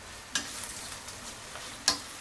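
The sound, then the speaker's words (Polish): Onion sizzling in olive oil in a frying pan: a soft, steady crackling hiss with two sharper clicks from stirring, fairly faint and with no talk. “Oliwa z oliwek nadaje jej również taki żółtawy kolor. Zaczyna nam przyjemnie dla ucha skwierczeć na patelni.”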